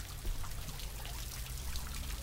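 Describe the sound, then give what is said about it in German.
Salt water trickles down a graduation tower in a soft, continuous hiss and patter, even and unbroken throughout, with no voices. “mit Sabine Leclerc-Fröbel nochmal um das Gradierwerk spaziere, vorbei am leise rieselnden Salzwasser”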